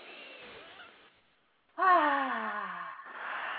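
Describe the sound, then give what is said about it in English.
Deep breathing as people breathe together: a soft airy inhale, a short silent pause, then a long voiced sigh-like exhale that drifts slightly downward in pitch before trailing into breathy air. “Let's all take a deep breath together.”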